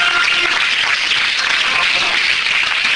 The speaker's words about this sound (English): Give God another hand clap of praise up in here.